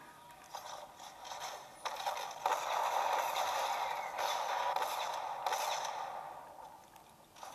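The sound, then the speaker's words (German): A bunker door opens in Fortnite with a grinding mechanical rumble: a faint, sustained scraping and ratcheting drone broken by a few sharper clunks over several seconds. “Der Bunker ist geöffnet?”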